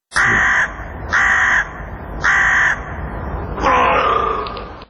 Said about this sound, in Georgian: ყვავიდა ყორანი ლათინურად კორვუს კრებითი სახელწოდება ბეღურას ნაირთა რიგის ფრინველებისა არჩევენ რუხს ყვავსა და შავს ყორანს